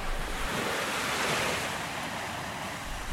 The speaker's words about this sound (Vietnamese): gió bắt đầu thổi mạnh, ông lão gọi lớn: Cá vàng ơi! Giúp tôi với!